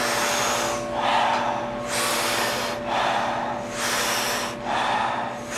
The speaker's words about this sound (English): you're blowing up a balloon, and that balloon is your lungs, your chest, your belly. And the exhale is just a soft exhale. We do it rhythmically. We do it together. It sounds like this.